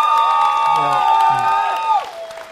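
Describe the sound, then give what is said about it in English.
Audience cheering for worship bands at a winter retreat, loud sustained whoops and high shouts from many voices over scattered clapping, thinning out near the end. “we're not applauding for their performance, because it's not performance, right? What we're applauding is the fact that they are serving Jesus with us,”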